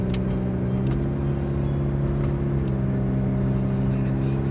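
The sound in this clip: Steady engine drone of a car driving slowly, about 60 km/h, on a foggy road, with a low, even humming tone and no clear acceleration.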